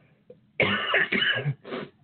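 Coughing and throat clearing from someone who swallowed something the wrong way: a faint rasp, then a loud cluster of harsh coughs and a final shorter cough, with no talk.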